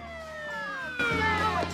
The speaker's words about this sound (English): Suddenly, a police car appears from nowhere and screeches to a halt in front of them.